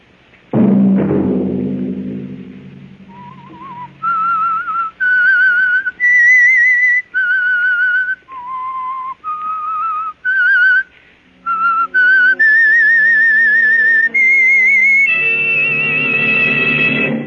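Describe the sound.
An eerie whistled melody, the theme of the radio drama The Whistler, rising and falling through distinct held notes after a decaying low struck tone, with lower accompaniment joining near the end.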